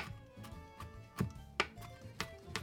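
A knife finely chopping onion and garlic on a board gives several sharp, evenly spaced knocks, faint against a soft, steady background.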